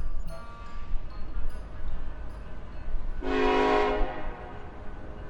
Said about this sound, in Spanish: Tren procedente de Madrid acaba de hacer su entrada en la estación.